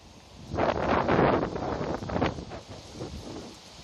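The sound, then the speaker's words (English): Wind blowing outdoors and picking up, with loud rushing gusts buffeting the microphone. The roar swells to a strong peak, eases, surges again, then settles into a lower, steady breeze. “So much for the wind dying down. Actually, I think the wind is picking up as I go here.”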